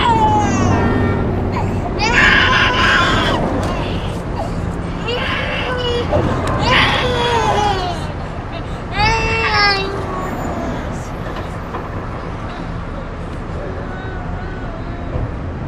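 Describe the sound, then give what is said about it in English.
A baby screams and cries in a few loud, high wailing bursts with quieter whimpers between them. “trying to calm the screaming baby”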